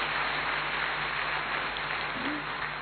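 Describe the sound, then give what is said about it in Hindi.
An audience clapping hands at a spiritual talk, a thick, continuous patter of many claps at a steady, even level for about three seconds, with no voices over it. “ताली बजाओ खुद के भाग्य के लिए”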